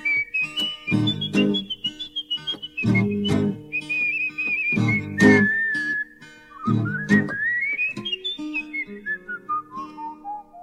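A blues melody whistled in a clear, bright tone, with sustained notes that slide and bend. Low instrumental backing and strong, regular percussive accents sit beneath it.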